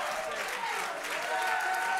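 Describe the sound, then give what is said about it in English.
A church audience claps along during worship, a dense, steady patter of many hands that holds for the whole moment, with voices mixed in beneath it. “Come on, clap those hands. Magnify the name of Jesus.”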